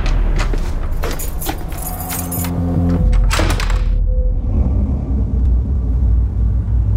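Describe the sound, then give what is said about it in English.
Car keys jangle as they are handed over, a few bright metallic rattles early on, then a thud like a car door, all above a steady low rumble. “you got her car keys? Yeah. Give me them.”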